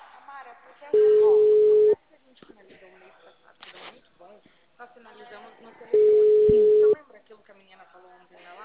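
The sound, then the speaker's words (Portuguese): Telephone tone heard when calling a busy number: two long, steady, mid-pitched beeps about five seconds apart, each lasting around a second, with voices talking in between. “Olá, o número que você ligou está ocupado.”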